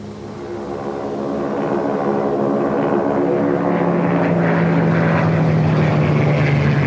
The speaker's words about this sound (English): Two Japanese Zeros land and taxi across the tarmac toward Nick and Joe.